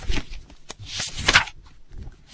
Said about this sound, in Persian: کتابو باز کردم و شروع کردم به ورق زدن.